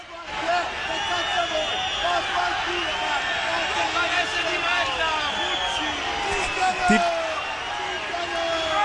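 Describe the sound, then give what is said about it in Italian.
Tuscan football fans react to their team's defeat with a dense, continuous roar of many voices shouting and chanting together, loud and steady throughout. “Tifosi toscani che stanno prendendo bene la sconfitta.”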